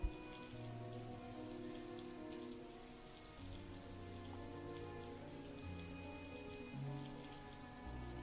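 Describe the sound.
Steady rain patters continuously and softly, with gentle sustained musical tones running underneath throughout.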